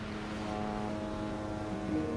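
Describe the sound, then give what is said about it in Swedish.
Steady low engine drone of a ferry underway at sea, a constant rumbling hum without breaks. “Beata står på en färja mot Sverige”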